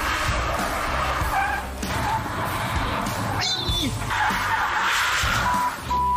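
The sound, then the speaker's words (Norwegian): Tires skid as a 585-horsepower car is thrown into a drift, a loud, rough roar of engine and scrubbing rubber that pulses throughout, with a short high squeal near the middle. “Dette blir eh, første drifting. 585 hestekrefter.”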